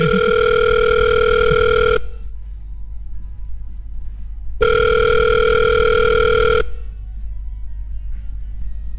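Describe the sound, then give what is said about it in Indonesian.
Telephone ringback tone heard while a call to a band's members goes through: two steady, buzzing rings of about two seconds each, separated by a longer silent pause, loud and alone with no voices. “gue coba hubungi mereka dulu ya mudah-mudahan uh, diangkat kalau nggak diangkat kasihan kasihan gue”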